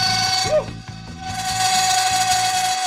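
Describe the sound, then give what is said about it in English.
An overturned cast iron kitchen pan sings as it cools on chunks of dry ice: a sustained pure whistling tone with a fainter, higher whine, over a steady, rhythmically pulsing low rattle that runs throughout. “The metal pan was singing.”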